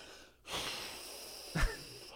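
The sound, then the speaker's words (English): Faint deep breath drawn in slowly, a soft airy rush lasting about a second, then a brief louder puff of breath. “taking a deep breath”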